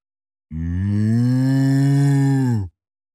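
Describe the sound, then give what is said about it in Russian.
A single loud cow moo, a steady low-pitched bellow rich in harmonics that lasts about two seconds and is heard alone. “Грузовик молчит, а коровы говорят”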